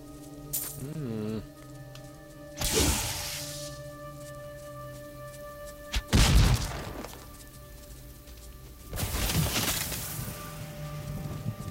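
An exploding palm attack in a video game lands as three crashing, bursting impacts spaced a few seconds apart over a steady tonal music bed.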